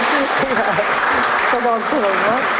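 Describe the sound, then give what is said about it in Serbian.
An audience gives a short round of steady clapping to greet the head of a Serbian association of the blind, while a voice speaks over the applause. “Jednim aplauzom možemo na početku da pozdravimo Vesnu Nestorović.”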